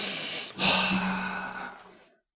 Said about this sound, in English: Breathe.